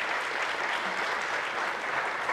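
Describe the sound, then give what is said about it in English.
Church audience applauding to welcome a new member into the church family, a dense, even patter of many hands that holds steady throughout. “Yes, give her a hand. Give the Lord a hand.”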